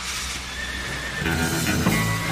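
A horse neighs, a loud, shrill whinny rising out of steady background noise in the second half.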